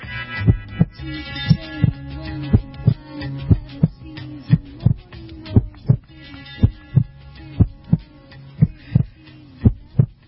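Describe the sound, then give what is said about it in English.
A human heart pumping hard, heard as loud, steady, rhythmic low thumps repeating many times over a low hum. “Love that sound. That is the sound of my heart pumping big time.”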